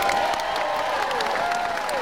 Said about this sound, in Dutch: Dank voor het laatste applaus.